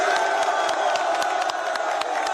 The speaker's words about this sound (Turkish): Lukaku taraftarları selamladı. Tezahüratlara eşlik etti. Daha ilk dakikada tribünle bağını kurdu.